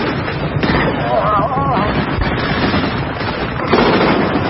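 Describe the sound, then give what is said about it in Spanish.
Gunfire from soldiers' guns in a battle between German and Russian troops crackles in many loud, sharp bursts, with a brief voice rising above the shooting. “avanza arrastrándose entre cadáveres de soldados rusos y dispara. Varios alemanes son abatidos.”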